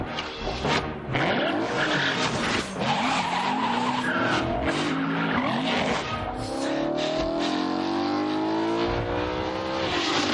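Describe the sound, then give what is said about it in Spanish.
Car and motorcycle engines roar through a film chase in narrow streets and down a castle's access stairway, loud and continuous, with skidding, squealing tires throughout and a revving engine climbing in pitch toward the end. “La persiguen por calles estrechas. Moto y coche bajan la escalera de acceso a un castillo.”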